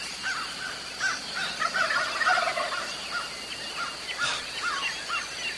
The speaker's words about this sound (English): Listen to those gobblers. Now, you hear the difference in the sound? It's because they're all around us now.